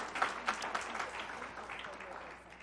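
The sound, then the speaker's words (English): A gathering of men claps in appreciation, honoring someone's service. The clapping is dense and steady, quiet overall and tapering slightly toward the end. “Can you clap for the Lord for that, gentlemen, in appreciation for what you have”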